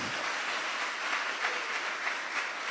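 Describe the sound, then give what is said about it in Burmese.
Church audience clapping hands in praise, an even wash of many hands at a moderate level, sustained without pause and with no voices standing out. “ဟာလေလုယာဟာလေလုယာလက်ခုပ်တီးပြီးဖျားရှင်ချီးမွမ်းရအောင်”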